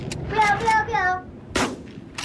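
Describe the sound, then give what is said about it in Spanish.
A shotgun fires as a loud, sharp blast after a stretch of shouting voices, and a second shorter burst follows near the end. “¡No! ¡La escopeta!”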